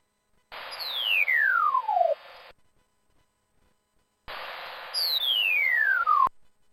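Descending sonification tone from a white cane, held with its left side farther away and its right side closer. Two identical bursts of buzzy electronic hiss, each carrying a clear tone that glides steadily downward in pitch, separated by a pause.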